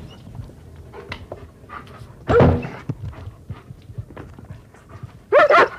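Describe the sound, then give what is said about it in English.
A German Shepherd that goes along on runs barks twice, each a loud, sharp burst a few seconds apart, with quieter panting and rustling in between. “Well, I just happen to have a German Shepherd, and I take him with me when I go running.”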